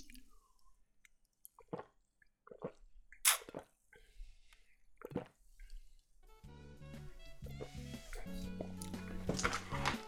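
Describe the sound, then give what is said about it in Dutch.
Someone drinks a drink from a small bottle until it is empty. A few faint, wet gulps and swallows come with short pauses between them, followed by a denser, louder stretch of sound. “ik ga het drankje leeg drinken.”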